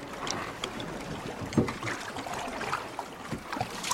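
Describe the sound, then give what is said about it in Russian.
A fishermen's rowboat moves across water toward set nets, with soft, steady sloshing and splashing and a few slightly louder knocks, faint and without voices. “Рыбаки на лодке подплывают к расставленным сетям.”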